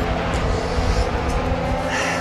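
Engine of a Formula 1 car driven around the Monaco circuit in the video game F1 22, a steady, loud, unbroken roar with a sustained buzzing tone throughout.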